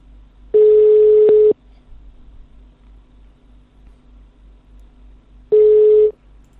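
Telephone ringback tones from a phone number just dialed: two steady mid-pitched ringing tones, each about a second long, separated by a long silent gap over a faint line hum.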